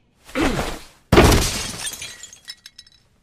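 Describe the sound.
A bottle of top-quality rosé wine shatters with a sudden loud crash after a brief burst of noise. A scatter of small glass tinkles and clinks follows and fades out.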